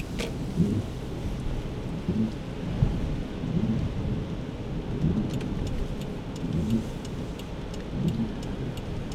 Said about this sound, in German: Engelskirchen, es regnet.